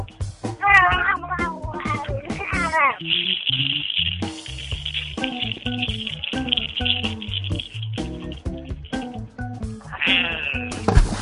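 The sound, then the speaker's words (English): A human voice imitates a World of Warcraft Murloc eating pork rinds, a long run of gurgling, warbling squeals and bleat-like cries broken into many choppy bursts over a steady hiss. “I'm going to give you what I think a Murloc would sound like when eating pork rinds.”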